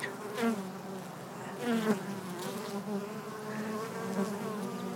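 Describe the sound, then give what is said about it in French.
Honeybees buzzing at the entrance of a beehive, a dense droning hum with wavering pitch, as individual bees swell louder while passing close and then fade back into the swarm. “On a mis des micros devant l'entrée de la ruche, là. Elles sont en train de se poser des questions pour savoir si c'est pas un ennemi qui est en train d'arriver. Elles font des va-et-vient autour.”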